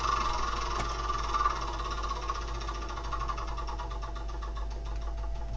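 A board game spinner being spun gives a rapid run of light ticking clicks over a low, steady hum, with no voices.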